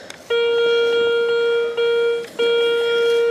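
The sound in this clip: A metal detector sweeping over buried metal sounds a steady, fairly high beep. The tone holds for about three seconds, broken by two brief dips into three segments, with no voices.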